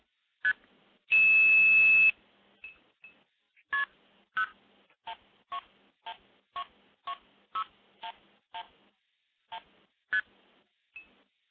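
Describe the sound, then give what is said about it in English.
Telephone DTMF tones dial into a switch in Minnesota: a short beep, then a long steady tone, then a quick, even series of many short dual-pitched touch-tone beeps, clear and alone with no talk. “So let me initiate the stack by dialing into a switch up in Minnesota.”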